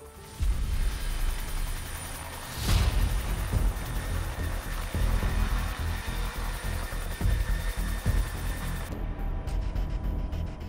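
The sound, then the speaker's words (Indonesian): A helicopter flies over the Jayawijaya mountains in Indonesia early in the morning after leaving a high-altitude heliport. Its engine and rotor make a dense, steady roar that stays loud and continuous for about ten seconds. “heli terbang pada sekitar pukul 6.30 pagi.”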